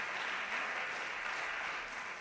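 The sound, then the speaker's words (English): Applause from an audience after a jazz performance, a quiet, continuous rush of many hands clapping that stays level and dense, fading only a little at the end. “This is a really, really cool arrangement, a beautiful rendition of the classic tune, Send in the Clowns. Let's give them a round of applause.”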